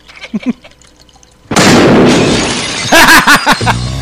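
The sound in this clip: A gun fires with a sudden loud blast that cuts in sharply and leaves a long, roaring noisy tail, with brief voices heard before and just after it.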